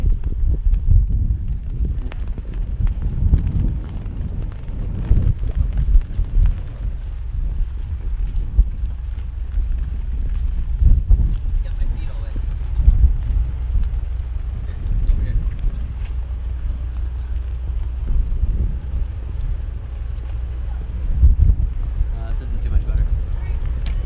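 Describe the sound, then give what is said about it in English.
Strong wind buffets the microphone while walking outdoors around a corner, a continuous low rumbling roar that swells with gusts throughout. “and now it's really freaking windy because we're turning the corner.”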